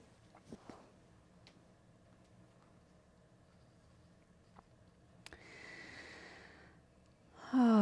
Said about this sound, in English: Oh, just taking a couple of deep breaths, being here.